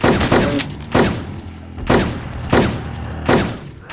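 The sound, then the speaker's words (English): Video-game shotgun fired in scatter mode: five heavy, booming blasts at a steady, unhurried pace, each with a brief decaying tail and no talk. “I love this weapon. This is a badass shotgun. Especially in scatter mode because it can hit multiple.”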